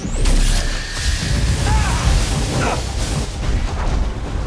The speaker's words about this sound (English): The paladins unlock their case and bring out a heavy machine. Roland presses a power button and it blasts energy at the jump scar.